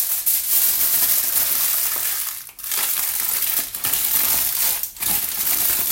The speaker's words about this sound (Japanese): アルミホイルはちょっとくしゃくしゃにしてしまおうと思います。